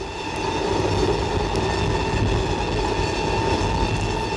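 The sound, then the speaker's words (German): An express train bound for Rome runs on the rails with a steady, continuous rumble and a hum that never lets up. Faint rhythmic clicks sit within the noise, and no voices are heard. “abgehängt und mich damit endgültig aus meinem Kurswagen nach Triest hinaus und in den Express nach Rom hineinrangiert.”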